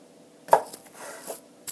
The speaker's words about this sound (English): I'm going to slice this into as thin as slices as I can, like you would pepperoni.